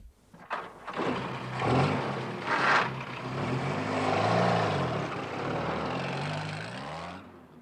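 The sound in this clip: A jeep engine runs with a rough, steady rumble and a few surging revs as the vehicle pulls up on a lonely road before a sharp left bend. The engine then cuts off abruptly at the end.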